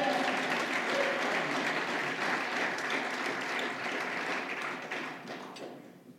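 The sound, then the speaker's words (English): A church audience claps hands in praise during a worship service, a dense, steady wash of applause that holds at full strength throughout and thins slightly at the very end. “Yes, give him a hand clap of praise.”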